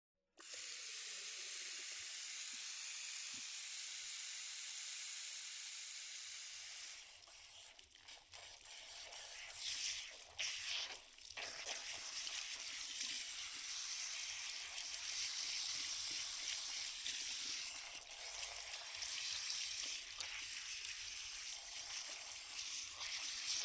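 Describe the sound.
Running water at a salon shampoo basin as hair is washed: a faint, steady hiss that turns into a rougher, more uneven splashing about seven seconds in and keeps going to the end.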